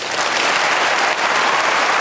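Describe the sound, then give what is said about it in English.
Dense applause from a crowd for David Cameron after his speech. The clapping stays loud and steady throughout, with no distinct voices standing out. “David Cameron's just taking the applause of the crowd walking through them with his wife Samantha.”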